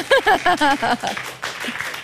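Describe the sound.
Audience applause at an improvised theatre show, a soft, even patter of clapping that rises after a brief spoken voice and carries on at a moderate level.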